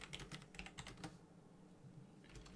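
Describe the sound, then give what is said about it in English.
Quick, faint clicking of typing a message on a computer keyboard, a burst of keystrokes, a short pause, then a few more taps. “sorry, just typing a, message.”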